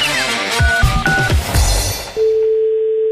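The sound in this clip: A telephone number being dialed to call a local union office: short electronic tones mixed with cluttered background sound, followed by a steady, continuous held tone.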